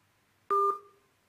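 Phone line tone after a caller disconnects: a single short, steady two-pitch electronic beep, fairly loud at onset, then trailing off quietly over about half a second.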